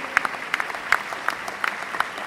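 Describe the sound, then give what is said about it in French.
Scattered applause from an audience as two authors are called on stage for a debate at a convention opening: a handful of sparse, crisp claps at irregular intervals, fairly faint, with no talk. “ce sont Jérôme Vibon et Jean-Marc Léné, et on leur demande de monter sur scène sous applaudissements, bien sûr.”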